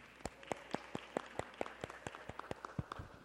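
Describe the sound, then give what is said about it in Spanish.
Audience applause for a guest speaker before a presentation on women in archaeology: many sharp, distinct claps arrive in a quick, fairly even rhythm. The claps are quiet and thin, as if from a few pairs of hands. “Pues un fuerte aplauso para nuestra invitada de esta mañana,”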